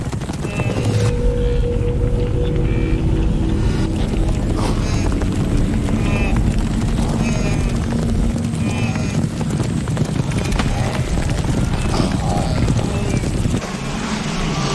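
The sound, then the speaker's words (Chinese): A large wildebeest herd running toward a river: many hooves pounding together in a dense, continuous, loud drumming with no clear gaps, while a voice talks over it. “在本能驱使下，角马群冲向河流。”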